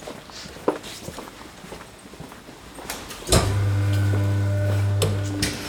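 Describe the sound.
Footsteps of two people walking along a corridor in a drama scene: a few soft, scattered steps, then a sudden thump followed by a steady, loud low hum that lasts to the end.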